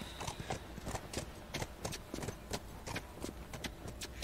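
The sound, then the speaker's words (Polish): Horse hooves clip-clop in a video game, many quick, even hoofbeats in a steady rhythm, faint and continuous throughout. “niech sobie jedzie na koniu.”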